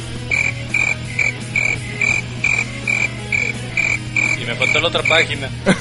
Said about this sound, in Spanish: Pon los grillos.